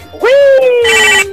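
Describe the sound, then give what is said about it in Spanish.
A second phone line ringing during a call-in: a loud electronic ringtone swoops upward and holds a steady pitch, then switches to a brighter, buzzier tone before cutting off. “Ay, espérame, espérame, está timbrando la otra línea.”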